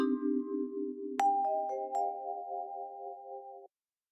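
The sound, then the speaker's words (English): An airport chime at Philadelphia airport: a soft sustained low tone gives way to a few bell-like notes that enter one after another and ring together, then cut off abruptly into silence. “As in the past, I apologize for the noise today. I am once again at an airport.”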